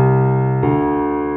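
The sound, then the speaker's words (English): Two sustained musical notes a whole step apart, the first held for about half a second before stepping to the second, both rich in harmonics and steady in loudness. “like how we have whole steps, which sounds like this,”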